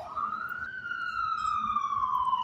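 A police car siren wails as the vehicle drives by: one long tone climbs briefly, then slides slowly downward over steady background noise.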